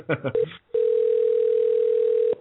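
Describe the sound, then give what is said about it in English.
Telephone line tone on an unanswered call: after a brief voice, a steady, unbroken mid-pitched tone sounds alone and loud, then cuts off. “I don't think anybody's answering the phone.”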